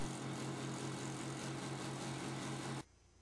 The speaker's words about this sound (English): Then mount the wheel on your vertical sander and rotate for a perfect circle.